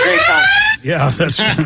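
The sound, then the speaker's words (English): A phone alarm goes off with a steady, buzzy electronic tone for under a second, then stops as a voice starts talking. “We have an alarm on.”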